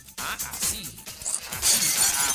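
A glass-shattering sound effect plays on a radio show: a few bursts of breaking glass with bright, tinkling fragments, growing louder and denser toward the end.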